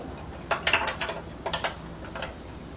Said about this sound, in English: Try when you screw something or unscrew it, this should be straight, not to the side.